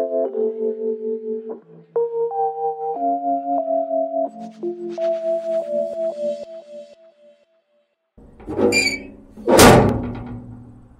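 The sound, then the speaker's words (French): Two dull, heavy thuds of a newspaper delivery hitting the door at 7 a.m. at a family home, following a short melodic tune. “Ça, c'est le bruit du livreur de journaux à 7h du matin chez mes parents.”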